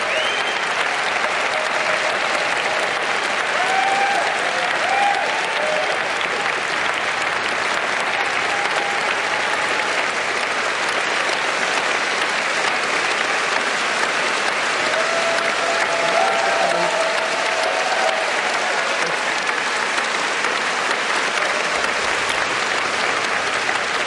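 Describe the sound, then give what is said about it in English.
A standing ovation follows the Chancellor's speech. Dense, sustained applause from a large audience runs unbroken and evenly loud for over twenty seconds. “And we believe that concludes the Chancellor's speech. As she thanks the audience for the standing ovation.”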